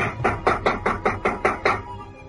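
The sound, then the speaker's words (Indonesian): Seven quick, evenly spaced knocks on a bedroom door, sharp and fairly loud, before the sound drops away to quiet. “tiba-tiba pintu kamarnya diketuk oleh seseorang.”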